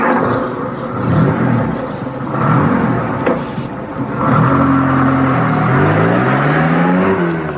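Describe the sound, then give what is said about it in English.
A van engine running and pulling away, a dense steady rumble with a whirring tone that climbs in pitch as the vehicle drives off. “get Jones into the back of the van. And hurry up. We've lost enough time as it is. I'll take the wheel.”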